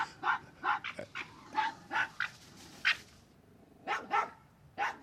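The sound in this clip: Harsh, chattering geckering calls come from a red fox cornered by a dog in a garden shrubbery, baring and gnashing its teeth. Many raspy, yapping bursts arrive in irregular clusters, fairly faint, with no talk.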